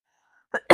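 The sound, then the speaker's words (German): A demonstrated cough into the elbow comes as two short, breathy bursts after brief quiet. The second burst is louder and is cut off at the end. “Wenn ich unter Leuten bin, huste ich auch tatsächlich immer so.”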